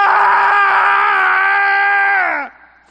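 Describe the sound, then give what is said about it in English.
A man's voice imitates the scream of a possessed man: one loud, sustained, strained cry holding steady pitch for about two and a half seconds, then dropping in pitch and cutting off abruptly. “a man possessed of an evil spirit began to scream out”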